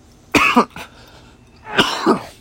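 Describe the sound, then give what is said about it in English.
Coughing and throat clearing in two loud, harsh bouts separated by a pause of about a second. Each bout is made of two rasping bursts close together. “I've got something in my throat. Excuse me.”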